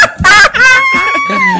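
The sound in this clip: A rooster crows loudly: a few short, harsh harmonic bursts lead into one long drawn-out call that sinks in pitch at its close.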